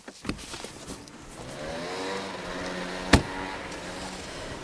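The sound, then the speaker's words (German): A car engine runs with a steady, throaty rumble and a slowly rising hum as the car is re-parked, with one sharp knock partway through. “Herr Mager parkt das Auto um und wir verfolgen ihn wieder mal.”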